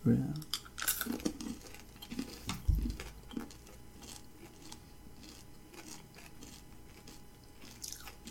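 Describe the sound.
Biting and chewing a spicy, jalapeño-flavored chocolate-covered peanut: a few sharp, loud crunches early on, then softer, quieter chewing.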